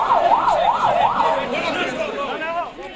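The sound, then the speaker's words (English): An ambulance siren wails, carrying victims to hospital after a car bombing near the Afghanistan border in northwestern Pakistan. The loud siren rises and falls in several smooth cycles, then gives way to shouting voices amid a busy street din. “sirens wail and people shout as an ambulance rushes victims to hospital after a car bombing near the Afghanistan border.”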